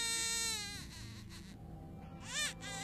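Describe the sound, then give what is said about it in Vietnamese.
A child crying, with faint wavering wails that rise into a sharper, louder cry near the end. “Bảo loáng thoáng nghe có tiếng trẻ con khóc cứ văng vẳng đâu đây”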